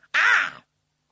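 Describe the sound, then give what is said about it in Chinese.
A single harsh, raspy caw from one of several crows flying overhead from north to south, loud and alone against silence. “这乌鸦叫了几声，往南而去。”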